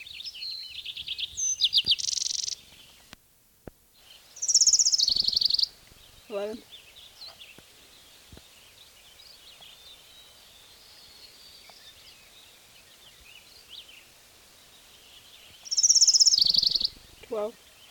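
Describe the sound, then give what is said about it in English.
Birds chirp in a few short, bright, high-pitched bursts, with quieter stretches and brief voices in between. “the fucking birds”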